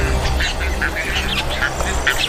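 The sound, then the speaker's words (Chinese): Bird chicks squabble over food brought by their parents, giving many short, shrill, overlapping calls in rapid succession, with no speech. “彩环雏鸟内斗不断，尤其是在父母带着食物回来的时候更为严重。”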